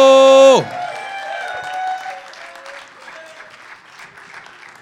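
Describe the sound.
An audience applauds to welcome a speaker giving a testimony at an evening gathering. A brief falling tone comes first, then dense clapping that gradually thins and softens.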